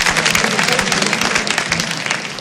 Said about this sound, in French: On les applaudit s'il vous plaît.